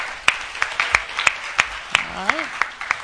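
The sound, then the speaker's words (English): Scattered hand claps from an audience greeting the men at a Father's Day gathering dubbed Man Day. Many sharp, evenly spaced claps run throughout, with a voice briefly heard over them. “Let's give all the men a hand, huh?”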